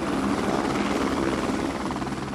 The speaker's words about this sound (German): 2 Hubschrauber bringen die Palästinenser und ihre Geiseln zum Fliegerhorst Fürstenfeldbruck.